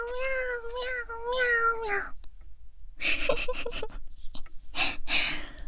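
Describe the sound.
A person imitates a cat meowing, giving a few drawn-out, nasal meows in the first two seconds, followed by breathy, broken vocal sounds and short gasps.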